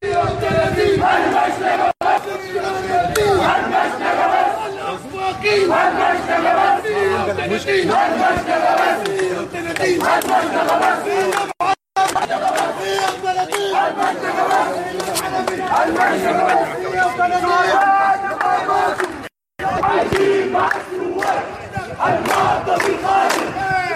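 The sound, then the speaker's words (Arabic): Resistance committee activists chant slogans in front of a court, celebrating a murder charge against an officer. The crowd's voices rise in loud, rhythmic chanting that runs almost continuously, with brief drops. “واحتشد ناشطون في لجان المقاومة أمام المحكمة ورددوا هتافات احتفاء بتوجيه تهمة القتل العمد على الضابط. وردد المحتشدون أمام المحكمة هتافات:”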